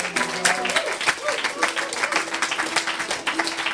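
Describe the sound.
Audience applause at a live acoustic music show with mandolin and slide guitar: dense, steady clapping runs through the whole stretch at an even loudness.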